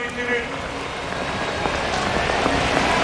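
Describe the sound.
Steady rain falls on an outdoor athletics stadium in Lausanne during a high-jump competition, a dense, even hiss of drops that holds constant and grows slightly louder toward the end.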